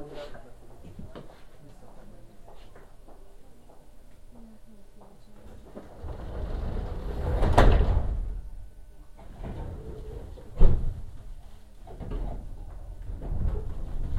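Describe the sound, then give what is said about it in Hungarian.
Sliding doors closing, heard as a soft swelling whoosh followed a few seconds later by a short, sharp thump, then lighter knocks, all under a low rumble with voices murmuring throughout. “Az ajtók zárulnak.”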